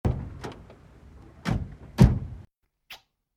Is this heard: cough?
no